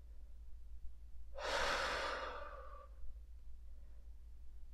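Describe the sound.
A single slow inhale taken during a guided meditation, a soft breathy rush that swells for about a second and a half and then fades, alone against quiet background hiss.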